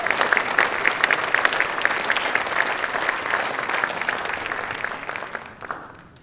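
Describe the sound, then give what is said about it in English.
A church audience applauds to welcome a pastor to the stage, with brisk, continuous clapping that holds steady before thinning and fading out at the end. “So let's give him a hand as he comes up here.”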